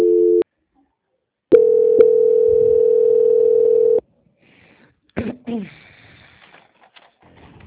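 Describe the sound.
Telephone tones while a call is transferred: a brief steady tone, a pause, then a longer steady low tone with a click in it. Fainter, scattered sounds follow once the tone stops.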